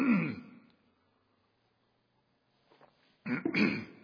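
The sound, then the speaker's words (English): Someone clears their throat in two rough, gravelly bursts: one at the start, then near silence, then a second, louder burst at the end. “I have something right there in my throat.”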